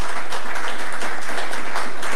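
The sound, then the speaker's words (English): An audience applauds at a public address honouring local doctors, a dense and loud wash of clapping that holds steady throughout with no talking. “I think we should give them a big round of applause.”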